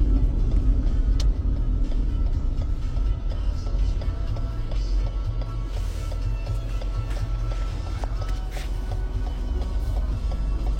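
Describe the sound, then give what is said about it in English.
Road traffic passes in a steady, low rumble of car engines and tyres that runs unbroken through the whole stretch, with faint brief clicks and knocks over the top. “there's just a lot of traffic out.”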